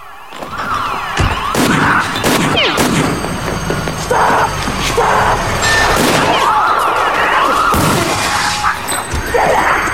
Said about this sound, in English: The truckmen get out and fire warning shots into the air.